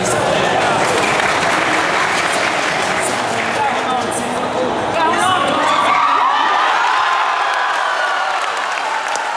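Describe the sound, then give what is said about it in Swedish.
Cheering, whooping and applause fill Harplinge church in Sweden after the 2-0 goal in Sweden's World Cup opening match. The loud, dense roar of the crowd is sustained throughout, with excited voices shouting. “Men vi kan väl höra då när nog glädjen var som störst i Harplinge kyrka vid 2-0-målet.”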